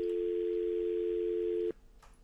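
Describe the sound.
A telephone dial tone heard after a caller's line was cut off: a steady, fairly quiet single tone that holds for under two seconds, then stops abruptly, leaving faint background hiss.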